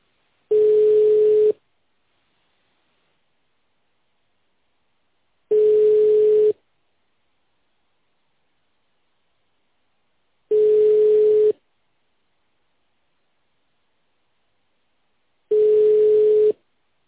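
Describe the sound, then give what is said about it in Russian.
A telephone ringback tone plays while a call tries to connect: four identical low, steady beeps, each about a second long, separated by long silent pauses at an even rhythm. “Продолжается попытка дозвониться до абонента.”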